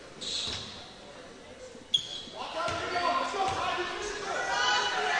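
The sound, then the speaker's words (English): Basketball dribbling at the free-throw line before a foul shot: a few dull bounces of the ball on the court, heard under steady talk and a crowd's background murmur. “Takes a couple dribbles. Bends, shoots.”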